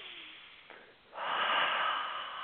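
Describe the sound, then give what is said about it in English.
A deep breath is drawn in and then let out in a long, loud, breathy exhale that swells quickly and fades slightly toward the end, heard alone without talk. “take a big breath, take a deep breath, let it all out”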